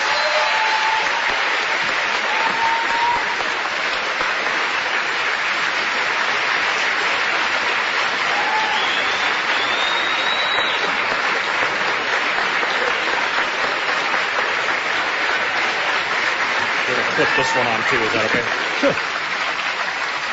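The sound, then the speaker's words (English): Audience applause welcoming a guest speaker from Molokai on Kauai, a long, sustained wash of loud crowd clapping with faint whistle-like tones scattered through it. “So please, a warm welcome for Walter Biddy from Moloka.”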